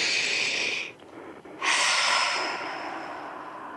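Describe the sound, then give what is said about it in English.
A group takes a deep breath together: one airy inhale, a short pause, then a longer, slowly fading exhale. The breathing is fairly loud and comes with no speech. “So if I can have everyone take a deep breath with me.”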